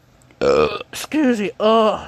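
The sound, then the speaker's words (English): Burping from a man, three drawn-out, voiced belches in quick succession, each loud with a throaty, tonal rumble and short gaps between them. “man, I'm burping again. Sorry about that.”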